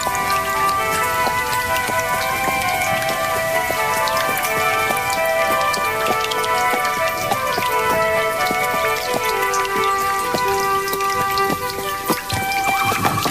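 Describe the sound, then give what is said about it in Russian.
Heavy pouring rain falls in a sudden downpour on a hot day, a few miles short of a post station. A dense, steady hiss of drops and spatters holds at an even, loud level throughout, with no voices. “В трех верстах от станции стало накрапывать, и через минуту проливной дождь вымочил меня до последней нитки.”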